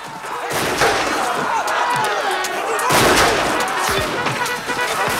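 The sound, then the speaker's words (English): Revolver gunshots ring out in a battle between Union and Confederate soldiers: a few heavy, sharp cracks stand out over dense, continuous battle noise. “Cabot shoots a number of enemy soldiers with his revolver.”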